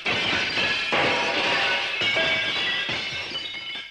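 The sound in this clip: A bear smashes a clay jar to pieces with a few loud, sharp crashes. Shattering, crunching fragments ring out between the heavy impacts.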